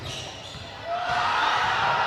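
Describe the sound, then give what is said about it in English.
Basketball dribbling on a court floor during a high school boys' game: a steady run of quick, dull ball bounces under constant crowd noise. “In the backcourt, nice dribbling”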